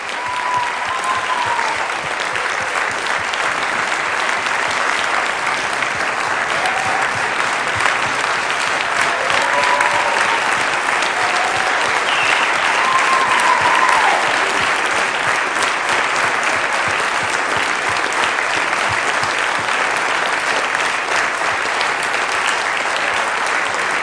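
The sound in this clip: Sustained audience applause welcoming volunteers at Charleston Pentecostal Church, a dense, even wash of many hands clapping that holds steady at a moderate level for over twenty seconds without pause.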